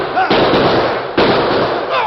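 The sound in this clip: Gunshots crack in a frontier shootout between a sheriff, a masked man and a gang. A few loud, harsh blasts each break into a long noisy roar, under excited shouting voices.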